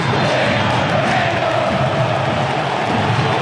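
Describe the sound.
Cerro supporters chanting in the stands at a football match, a loud, continuous crowd roar of many voices that holds steady without pause.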